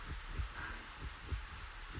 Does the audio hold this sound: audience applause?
no

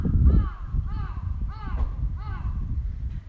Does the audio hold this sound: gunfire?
no

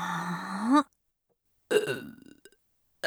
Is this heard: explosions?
no

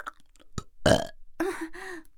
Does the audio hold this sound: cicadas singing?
no

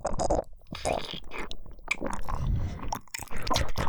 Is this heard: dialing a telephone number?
no

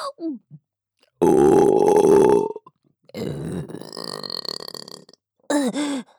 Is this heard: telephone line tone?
no

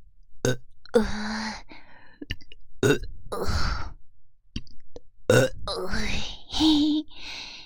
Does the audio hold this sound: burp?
yes

